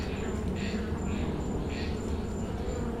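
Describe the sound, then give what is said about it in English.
Bees buzz around a huge hive in an abandoned garage, a faint, steady drone with a few swelling louder passes over low background noise. “there was this abandoned garage out here. And there was this huge hive. I couldn't stomach the idea of destroying it.”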